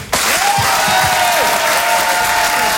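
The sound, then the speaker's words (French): Audience applause and cheering at a live comedy show: dense clapping starts abruptly and stays steady and loud, with a long, high, drawn-out cheer early on. “Je vous demande de faire un maximum de bruit, s'il vous plaît, mesdames, messieurs, en direct et en live sur Rire et chanson.”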